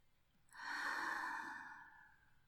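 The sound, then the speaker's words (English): A slow, deep breath out during a guided breathing exercise while lying down: a single soft, airy exhale that swells, holds, and gradually fades away. “Come on, take a deep breath in. And breathe out like this.”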